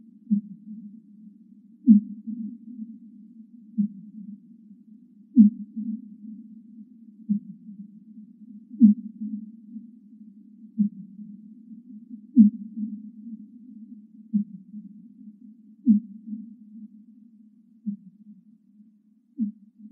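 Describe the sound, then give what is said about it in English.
Fin whale calls played back sped up tenfold: a long, steady series of short, low pulses repeating at an even rhythm, each a brief chirp-like thump, heard alone without voices. “Okay, let's listen to a fin whale call here.”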